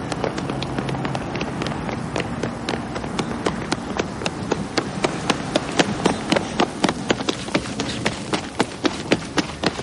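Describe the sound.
Quick, even footfalls of a woman running along a wide avenue beside a park of bare-branched trees, many sharp steps in a steady rhythm that grow louder toward the end.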